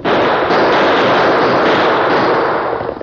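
Gunshots fired at riders during a stagecoach holdup by outlaws: a loud, dense volley of rapid shots blurs into one continuous crackling roar for about three seconds, with no voices.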